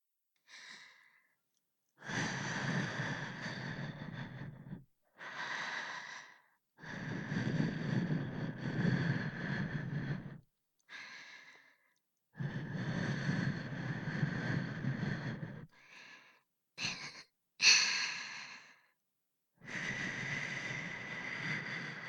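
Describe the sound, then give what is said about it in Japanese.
Many airy breath blows used to clear fine dust away, long soft puffs of air separated by short pauses, quiet and without talk. “細かいゴミ息吹きかけて取っちゃうね。”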